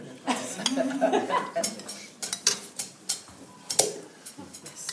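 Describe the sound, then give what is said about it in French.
Clattering kitchenware as a crêpe pan is set down to make room, with a series of sharp clinks, knocks and scrapes of dishes and utensils at an uneven pace. “il faut qu'il pose sa poêle. Mmh. Bah, on va lui faire de la place. Une poêle à crêpes.”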